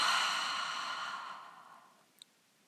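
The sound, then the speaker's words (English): A slow, deep exhale through the mouth during a guided breathing exercise, a breathy, steady rush of air that fades gradually over about two seconds into near silence. “Take a gentle, deep breath through the nose and exhale completely through the mouth.”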